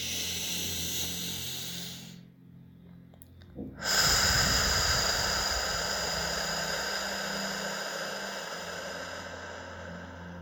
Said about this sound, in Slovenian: In drugič globok vdih skozi nos.